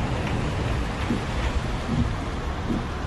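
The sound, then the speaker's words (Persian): Steady rain falls while someone drives along a road, a dense, even hiss that continues without a break. There are no voices. “هوا بارونیه.”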